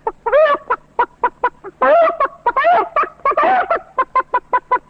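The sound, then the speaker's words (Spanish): A human voice imitates a henhouse of chickens waking up on a hot, hazy August afternoon: many loud, sharp clucks in quick runs, broken by a few longer, strained cackling squawks. “Pero estas otras cosas más sencillas del corral, por ejemplo, este despertar en la tarde caliginosa de todo el gallinero.”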